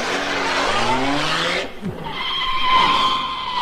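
A comedy sound effect of a car speeding off: a steady, whining engine roar, then a short drop and a brief squeal, then the engine climbs again to a louder, higher drone with no voices over it.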